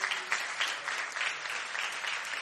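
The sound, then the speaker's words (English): A church audience applauding, clapping hands in a dense, steady wash of applause that keeps an even level throughout and is fairly faint. “Give a big hand clap,”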